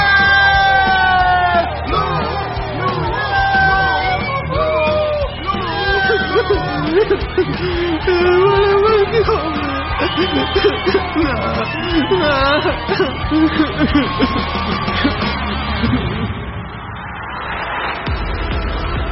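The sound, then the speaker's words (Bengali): Crowd screaming, yelling and cheering in an arena at the end of a fight, a loud, dense roar of many voices with shrill shouts rising above it throughout. “অবশেষে 1 ঘন্টা শেষ হতেই চিৎকারের ফোয়ারা ছুটল।”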